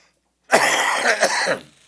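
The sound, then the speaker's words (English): A short fit of harsh, rough coughing: a few loud bursts run together over about a second, heard alone with no talk around them. “I'm trying to keep myself from breathing too deeply and coughing all over.”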